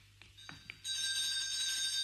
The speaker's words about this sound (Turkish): Şu zili bir daha çal.